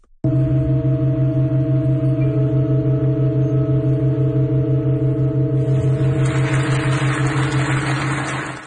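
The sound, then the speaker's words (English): A slow-playing organ in Halberstadt, Germany, sustains a loud, steady chord, and partway through the upper register shifts as the chord changes from seven notes to eight, with no other sound. “The exciting sound of the John Cage organ in Halberstadt, Germany, changing chords.”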